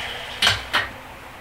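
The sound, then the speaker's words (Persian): A lid set onto a cooking pot of rice on a gas stove with the flame turned down: two short metallic clanks in quick succession, fairly faint against quiet background noise. “زیر این گازه رو یه دونه دیگه کم میکنم و در قابلمه رو میذارم.”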